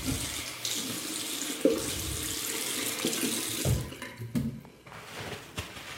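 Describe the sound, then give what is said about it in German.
A tap runs as hands are washed at a sink in a clean toilet before an airport security check. The water rushes softly and unevenly, with shifting splashes and a brief dip before it continues. “Gut, aber vor der Sicherheitskontrolle gehe ich noch mal aufs Klo. Boah, schön sauber noch hier. Hände waschen.”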